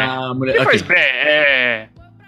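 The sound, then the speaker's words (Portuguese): A sheep bleats in a loud, drawn-out, wavering cry that holds a quavering pitch before cutting off abruptly into near quiet. “Ovelha ou carneiro? Qual a diferença de ovelha e carneiro?”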